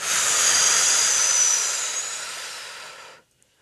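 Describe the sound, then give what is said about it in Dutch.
A long, breathy exhale blown out during a guided relaxation. One steady, loud hiss lasts about three seconds, slowly fades, then stops abruptly. “diep adem en blaas je alles even uit, want het is tijd om weer terug te gaan. Dus adem in en blaas alles uit.”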